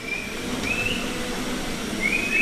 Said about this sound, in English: She and 2 of her employees whistle at the black and white cows, coaxing them into the stalls.